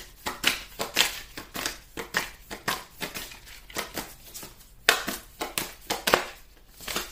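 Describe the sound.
Playing cards are shuffled by hand in many quick, papery riffles and snaps, with uneven bursts repeating throughout.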